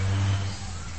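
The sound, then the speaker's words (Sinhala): A bus engine gives off a steady low rumble with a constant hum and broad noise, holding at an even level throughout. “හරි bus එක.”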